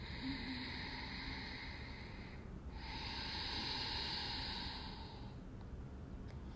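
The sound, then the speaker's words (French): Two long breaths drawn in through the nose during a guided breathing exercise, each a soft, airy hiss lasting a couple of seconds with a short pause between, quiet and without speech. “On inspire. Par le nez. Inspire à nouveau par le nez.”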